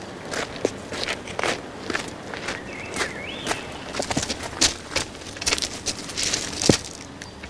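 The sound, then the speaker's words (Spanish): Footsteps of a person walking down the middle of a railway track, feeling along the rails with their feet. Many sharp, uneven steps land at irregular intervals, some louder than others, with no talk. “camina por en medio de la vía tanteando los raíles con los pies para orientarse”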